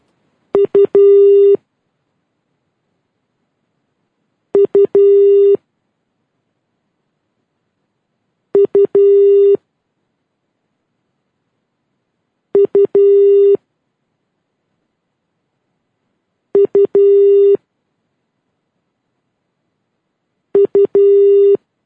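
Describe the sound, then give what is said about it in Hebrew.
Telephone ringing tone on a live call comes as six evenly spaced bursts, each a quick cluster of loud, pulsed electronic tones separated by silence. “בוא נחייג אליו בשידור חי.”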